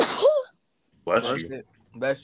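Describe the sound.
One short, sharp sneeze from someone who feels they are getting sick bursts out at the start. After a pause, two brief spoken replies follow.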